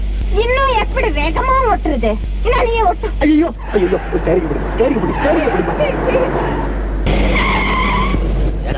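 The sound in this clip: Fast car driving with skidding, squealing tires under a dense engine and road roar, while voices talk over it through the first part.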